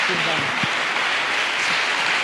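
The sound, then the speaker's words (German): A church audience applauds people who shared their testimonies, a continuous wash of clapping running steadily under a voice heard briefly near the start. “gebt ihnen nochmal einen großen Applaus so für den Mut teilen”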